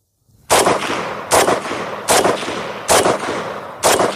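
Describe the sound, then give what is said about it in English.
Five loud gunshots fired at a bottle ring out at a steady rhythm, each a sharp crack with a short fading tail, and no talk between them. “Shoot the gun.”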